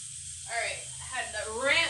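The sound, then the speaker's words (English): Running tap water rinses something on a cutting board in a kitchen while onions are being prepared, giving a steady hiss throughout, with a low murmuring voice over it. “Let me rinse this off.”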